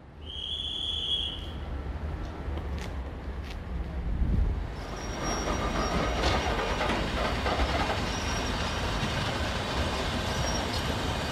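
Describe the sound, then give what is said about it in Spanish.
A train sets off from Palma de Mallorca toward Manacor, opening with a brief high squeal, then a steady rolling rumble and wheel noise that fills out and grows fuller as it gets under way. “Mientras el tren se pone en marcha para dirigirse a Manacor desde Palma de Mallorca”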